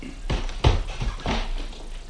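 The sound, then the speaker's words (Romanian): Knocking on a door: a few dull, muffled thumps in an uneven rhythm, heard alone over a faint steady hiss. “Parcă bate cineva. Se pare, nu?”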